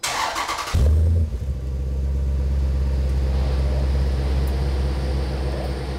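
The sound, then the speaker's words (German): A car engine revs, a deep, loud low rumble that kicks in after a brief noisy start and holds throbbing and steady to the end. “Gib mal Gas. Ganz anderer Klang.”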